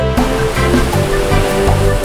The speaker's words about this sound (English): Waves are washing, splishing, splashing.